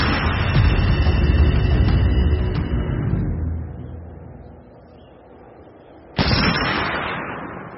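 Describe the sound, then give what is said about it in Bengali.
Gunfire, said to come from a modern rifle and heard on a hillside. A loud report decays into a rumbling tail and near-quiet, then a second sharp crack bursts in and trails off. “এখানে গুলি চলবে কেন? লাল ফৌজ আওয়াজটা আধুনিক রাইফেলের মনে হচ্ছে, হতেও পারে।”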